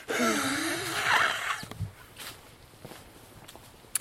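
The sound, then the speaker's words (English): A person walking outdoors beside a beech hedge wheezes, with a raspy, drawn-out breath lasting over a second, then quieter scattered footsteps. “Must remember to take a Lemsip when I get back in the house. You can hear me wheezing.”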